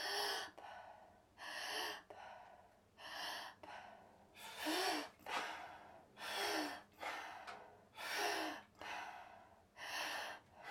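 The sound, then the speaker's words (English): Open-mouthed breathing exercise, each exhale dropped out with a soft, breathy 'pa' sound. The breaths repeat many times in a slow, even rhythm, quiet and with no talk. “when you're a brand new breather, you might want to use the sound P-A, pa sound on the way out. And it'll help you just drop the breath. So it sounds like this.”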